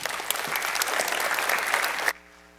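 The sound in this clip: An audience welcomes a speaker with a burst of steady, dense clapping that holds at an even level and then stops abruptly near the end.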